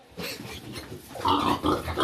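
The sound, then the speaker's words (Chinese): A sow grunts while guarding her piglets, a rough, noisy stream of grunting that becomes louder and harsher partway through. “母猪它也会过来保护它的崽”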